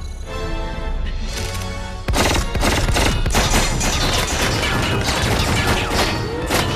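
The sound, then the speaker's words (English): Dense, loud gunfire in a video game as bullets bounce off a modified enemy, a continuous clatter of rapid shots and metallic impacts that grows heavier partway through. “Sounds like those bullets are bouncing off.”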